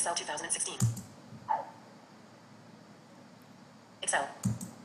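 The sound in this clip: Computer keyboard and mouse clicks while opening Excel: a few short, crisp clicks and taps, clustered near the start and end, separated by a long stretch of quiet.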